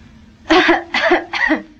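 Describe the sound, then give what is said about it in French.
Three hard, separate coughs from a patient told to cough during a doctor's chest examination in a 1943 French film scene. Each is loud and harsh, with short pauses between them. “Respirez. Toussez.”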